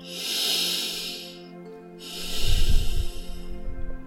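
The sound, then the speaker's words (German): Long, deep breathing: a slow, airy inhale rises and fades, a short pause follows, then a longer, heavier exhale with a low rumbling rush of air. The breathing is quiet and steady, with no talking. “Dann nimm einige lange und tiefe Atemzüge.”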